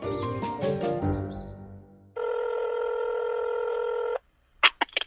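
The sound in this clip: A telephone rings for an outgoing call: one long, steady ringback tone of about two seconds follows a stretch of music and is followed by a few sharp clicks.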